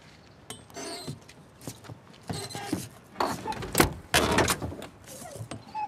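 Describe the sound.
A car door being opened on a car with worn tyres: a few clunks, latch clicks and rattling mechanism sounds come in irregular bursts, getting louder toward the end.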